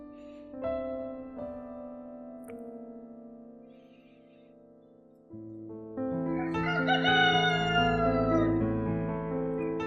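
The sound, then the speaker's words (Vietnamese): A rooster crows at dawn, a drawn-out, tonal call with sustained notes that grows louder toward the end, alone with no talk. “Tiếng gà gáy sáng.”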